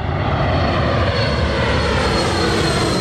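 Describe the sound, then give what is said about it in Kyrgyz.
Airplane flying over the city of Batken, whose airport sits in the middle of town: a loud, unbroken roaring drone of engine noise that holds steady throughout, with no voices. “Мына өзүңөр көрүп турасыңар, шаардын ортосуна жайгашып, шаардын үстүнөн учуп өтөт самолетчу.”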